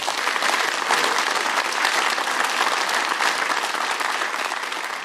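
Audience applause at Sage Gateshead's Free Thinking Festival, a dense, sustained wash of clapping that holds loud and steady for the whole five seconds.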